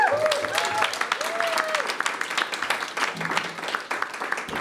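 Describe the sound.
A live audience at an Edinburgh Film Festival event applauds as a guest is welcomed onto the stage. Steady, dense clapping runs throughout, mixed with crowd noise and a few whistle-like cheers near the start.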